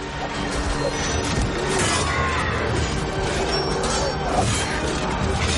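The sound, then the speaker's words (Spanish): Battle din of orcs and elves fighting with swords: a loud, dense, continuous crashing and clashing that holds steady from start to finish without a break. “Orcos y elfos luchan a espada.”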